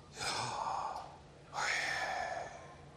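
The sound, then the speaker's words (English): A person breathing in and out, two long, airy breaths of about a second each, separated by a brief pause, soft and heard alone. “You breathe in and you breathe out, and it sounds like this.”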